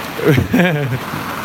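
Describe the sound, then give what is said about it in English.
Hailstones fall in a steady, dense patter, a broad hiss that carries on beneath someone talking. “wow, now we got hail. Sorry, we got hailstones. We can make another snowman.”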